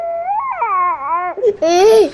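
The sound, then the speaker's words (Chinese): A young child fusses and cries during a phone call, giving wavering, high-pitched wails with a short break midway before a louder, strained cry resumes. “现在孩子闹得我没法跟你说话，我挂了啊。”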